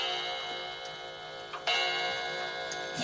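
Steady ticking of a clock sounds over a constant droning background, in an even rhythm of soft clicks with one sharper knock partway through.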